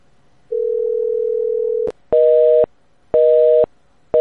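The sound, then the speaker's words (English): A telephone busy signal follows a steady dial tone and a sharp click, with loud, even beeps pulsing on and off: two full bursts, then a third cut short. “Antonio's phone is busy.”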